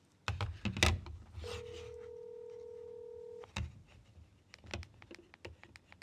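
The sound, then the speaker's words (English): Telephone dialing on speakerphone: a few brief tone bursts, then a steady held dial tone of about two seconds, followed by a run of short, quick dialing beeps. “should we call Vicky in Michigan? Fingers crossed it works this time.”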